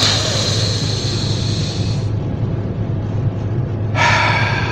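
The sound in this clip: A deep breath drawn in and let out through the mouth: a long airy breath sound, then a quieter pause, then another breath starting near the end, over a low steady hum.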